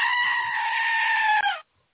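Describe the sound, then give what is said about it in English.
A goat bleats in one long, loud, nasal cry that holds steady, dips slightly in pitch at the end, then cuts off into silence. “The goat has returned, yes.”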